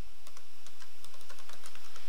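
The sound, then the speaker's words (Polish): Someone types a username on a computer keyboard, with many quick, light key clicks in an uneven rhythm that carry on throughout over a steady background hiss. “wprowadźmy nazwę naszego użytkownika”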